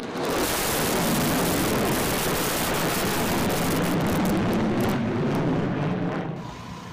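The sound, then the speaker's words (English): A bomber aircraft flies over a ceremony, producing a steady, broad, rushing roar that holds at a constant loudness for several seconds before easing off slightly near the end. “a bomber's flyover during the ceremony caused an unscripted moment”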